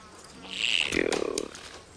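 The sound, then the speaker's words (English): Bees buzz in a flower garden: a steady droning hum that swells for about a second, then fades, with no talk. “Ugh, damn bees.”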